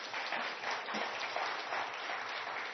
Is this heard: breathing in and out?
no